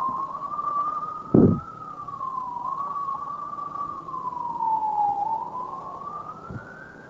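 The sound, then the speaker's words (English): An emergency vehicle siren wails in a steady, slow rise and fall, sounding alone and fairly loud throughout, with a brief low thump partway through and another faint one near the end. “That's an emergency vehicle. If you don't have an emergency, always respect those vehicles. Emergency vehicles.”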